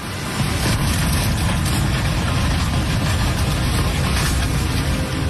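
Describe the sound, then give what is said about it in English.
A loud, unbroken rushing roar of floodwater pins a caravan against a bridge during a night-time flood in Germany. The dense, heavy noise holds steady throughout, with no clear breaks or separate impacts. “That's a caravan being pressed against a bridge by floodwater.”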